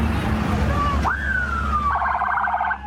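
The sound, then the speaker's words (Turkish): A police siren sounds as a convoy of decorated police vehicles departs one after another. The wail jumps up, then glides slowly downward and breaks into a rapid warbling yelp, over a steady low rumble of engines. “Süslenen polis araçları peş peşe yola çıktı.”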